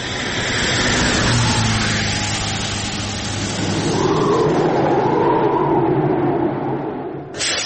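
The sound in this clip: A car engine revs hard as the vehicle pulls away, a loud continuous roar that swells again around the middle and eases slightly near the end.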